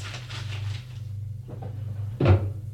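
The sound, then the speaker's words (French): A writing-desk drawer being opened, heard as a single brief, low knock near the end over a faint, steady low hum. “va à son secrétaire, ouvre un tiroir, en sort des billets de banque”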